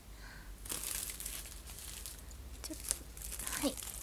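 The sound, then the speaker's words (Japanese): Wrapping crinkling and tearing as a package is opened, a soft, continuous rustle broken by a few sharper crackles, faint and without talk. “まずは開封をしていこうと思います。”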